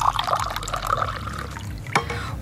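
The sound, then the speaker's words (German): Lime water with pieces of lime in it is poured into a glass, making a continuous soft trickling fill that lasts about two seconds. “Dann gieße ich Ihnen mal gerade auch etwas ein.”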